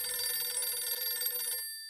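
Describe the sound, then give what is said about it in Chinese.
A telephone rings for an incoming call, a bright, steady trilling tone held for most of the stretch before it cuts off near the end, with no voices. “想到这儿，蒋介石赶紧给毛人凤打了电话。”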